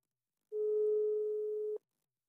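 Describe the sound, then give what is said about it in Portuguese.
A telephone call tone for a call that goes unanswered: a single steady, mid-pitched electronic tone lasting just over a second, heard alone with silence before and after. “tu dizes para eu te ligar e depois não atendes”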